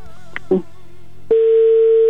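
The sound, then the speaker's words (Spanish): A telephone line tone while a call goes through, with a few brief clicks and blips followed by a loud, steady single-pitched electronic tone that holds unbroken to the end. “ya entró otra vez la llamada, ya está sonando.”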